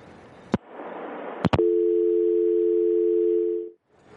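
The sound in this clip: A telephone dial tone sounds after a caller hangs up on the line. A few sharp clicks come first, then a steady, unbroken mid-pitched tone holds for about two seconds and cuts off abruptly.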